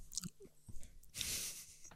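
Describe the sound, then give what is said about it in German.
Crunchy chewing of Stixi snack sticks, with a few sharp, dry bites followed by a longer, denser crunching burst, fairly faint and with no talk over it. “Und du isst immer noch Stixis. Ja, genau”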